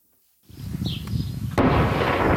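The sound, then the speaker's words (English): Israeli shelling and gunfire in southern Lebanon: a rumbling blast breaks out of silence, then a second, sharper and louder explosion is followed by a sustained roar. “That is the sound of Lebanon's ceasefire today. As Israeli shelling and fighting by Hezbollah militants continues”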